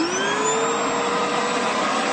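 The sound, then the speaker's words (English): Loud, steady whine of a high-powered commercial vacuum sucking up clusters of spotted lanternflies from trees, a continuous roaring drone with no breaks and no talk. “They've acquired these five high-powered commercial vacuums that are used to suck up these large clusters of insects.”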